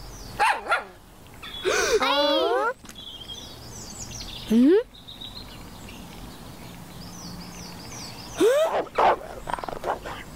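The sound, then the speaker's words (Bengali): Dog barking and growling while chasing someone, with a few loud, harsh barks and a longer rough snarling burst separated by quieter stretches. “এখন কি করি, এখন কি করি, এই কুকুরটা আমার পিছুই ছাড়ছে না।”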